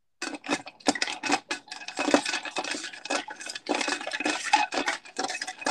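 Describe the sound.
A spoon stirs a martini in a glass, producing rapid, continuous clinking and scraping with many quick strokes in an uneven rhythm after a brief silent start. No voices are heard.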